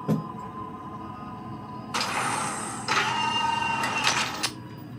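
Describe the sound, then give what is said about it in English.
A spaceship airlock door opens over a low steady hum: a loud hissing, mechanical whoosh with a whining tonal edge starts about two seconds in, surges again, then cuts off near the end. “Warning, warning, warning. Airlock opening. Airlock opening.”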